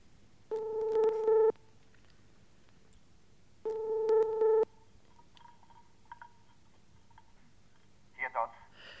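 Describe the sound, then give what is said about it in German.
Telephone ringing signal heard on a call: two steady buzzing tones, each about a second long, separated by a pause of roughly two seconds, followed by a few faint clicks. “ich rief dann Dr. Dotz an.”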